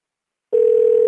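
A telephone call ringing while waiting for someone to pick up. After half a second of silence a single steady, clear tone starts abruptly and holds unbroken.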